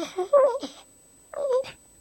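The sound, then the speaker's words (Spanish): A person cries in wailing, whimpering moans, heard as two drawn-out voiced bursts separated by a short silence. “No llores más, que ya lo has liado bastante.”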